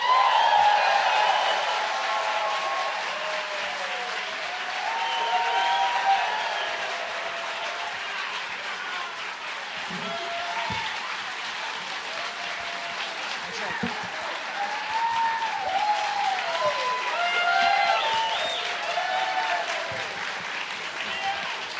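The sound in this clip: An audience applauds to welcome guests onto the stage at a live comedy show, a dense, steady clapping that lasts throughout, with voices rising over it.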